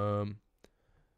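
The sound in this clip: A single sharp computer mouse click, short and crisp, right after a person speaks.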